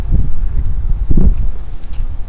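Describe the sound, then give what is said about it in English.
Strong wind blows through reeds, a loud, steady low roar and buffeting with soft rustling surges that swell briefly near the middle. “Wind rustling. Big wind.”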